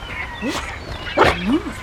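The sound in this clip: A dog named Timmy gives two short whining barks, the second longer and sliding up and then down in pitch, over a low rumbling background.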